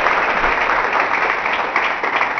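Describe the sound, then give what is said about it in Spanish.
Audience applause after a call to applaud during a religious sermon: dense, continuous clapping that stays loud and even throughout, with no voices standing out. “Un aplauso para Dios.”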